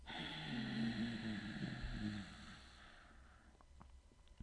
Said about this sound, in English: I like to call it my Darth Vader sound. Let's do a few of those. Inhale through the nose, move the breath to the back of the throat, and exhale, making an audible sound.